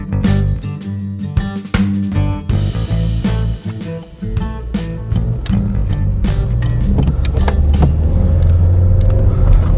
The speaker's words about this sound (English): I am currently driving up to the moors